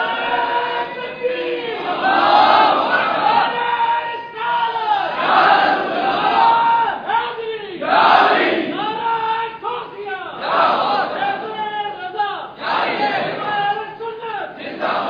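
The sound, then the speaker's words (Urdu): A crowd at a religious gathering about Ahl-e-Sunnat rights chants a slogan together, loud massed voices shouting in repeated bursts with short pauses between the calls. “مل کر نعرہ لگاؤ بیٹا”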